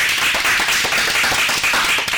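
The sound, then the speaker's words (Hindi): Applause from a group at a quiz, with quick, dense clapping and individual claps standing out in an uneven rhythm, loud and steady through the short stretch, with no talk. “बिल्कुल सही जवाब, जोरदार तालियां हो।”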